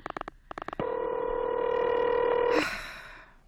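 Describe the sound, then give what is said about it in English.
Telephone dialing tones as a caller places a call to a police department: a quick run of short, evenly spaced beeps, then a long steady tone that cuts off into a brief burst of hiss. “do you have to dial? Can't you ring them directly?”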